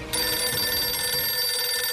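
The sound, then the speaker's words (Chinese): A telephone rings with one steady, unbroken electronic tone that holds loud and even for the full two seconds, with no voices. “结果不一会儿，黄乔松就接到了赵世龄打来的电话”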